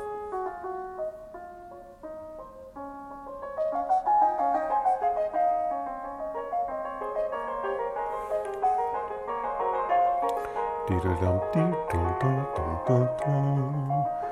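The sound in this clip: A fugue plays through small computer speakers, starting as a quieter thread of notes that builds into busy overlapping lines, with deeper low notes joining in the second half.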